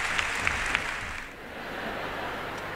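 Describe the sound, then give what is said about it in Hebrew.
Applause from a concert audience as a singer takes bows, a thick, continuous patter of many hands clapping at an even loudness, with a few sharper claps standing out early on. “ושוב, מחיאות הכפיים”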